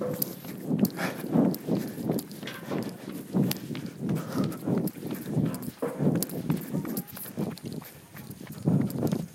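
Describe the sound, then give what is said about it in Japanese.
Running footsteps of a jogger on a park path at night, many quick footfalls in a steady, even rhythm, fairly faint and continuous throughout. “ちょっとこの辺ね、えー、夜道公園走ってます”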